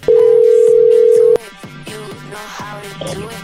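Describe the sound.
A telephone line tone as a call is dialed: a loud steady tone lasting over a second cuts off abruptly, followed by a quieter stretch of faint, repeated tones.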